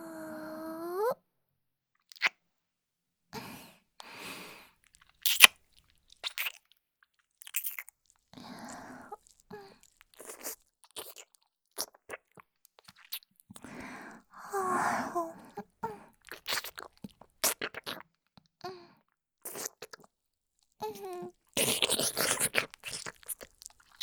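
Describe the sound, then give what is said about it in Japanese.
Soft wet kissing sounds: many quick lip smacks at an irregular pace, each a short moist click, with gentle breathy pauses between them and a denser burst of smacks near the end. “お兄さん、キス、お上手ですね。”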